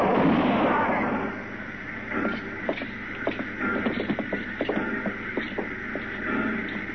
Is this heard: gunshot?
yes